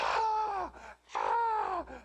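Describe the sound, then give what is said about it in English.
A human voice imitates a pet bird screaming with two drawn-out, shrill, harmonic wails separated by a short pause, each one sliding downward in pitch at its end. “you could come over to my house and eat popcorn and just watch this bird, right? But he would just start screaming. And then when no one would pay him attention, he'd just go,”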